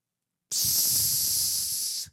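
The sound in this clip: A voice imitates the hissing steam release of a pressure cooker, one sustained, bright, breathy hiss that starts abruptly, holds steady for about a second and a half, then cuts off.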